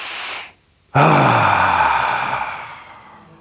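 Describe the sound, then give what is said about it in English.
A deep breath taken together by an audience at a live event for fathers: a soft inhale, a brief hush, then a loud shared exhale that slowly trails away. “So just take a deep breath. Actually, can we all just take a deep breath for him?”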